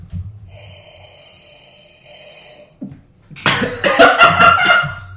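A person chokes after accidentally inhaling wine, breaking into a burst of harsh sputtering coughs and snorting gasps in the last two seconds. Before the fit there is a steady high tone and a short quiet breath.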